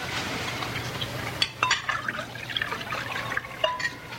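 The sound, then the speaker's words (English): Wine is poured at a table, a faint liquid trickle with soft drips and splashes over a low background hum. “Wine is poured at a table.”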